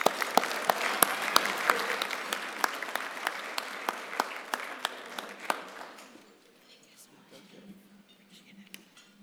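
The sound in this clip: Audience applause welcomes a speaker to the stage at a commercial real estate event. Many sharp claps ring out for about six seconds, then fade to near quiet with a few faint clinks.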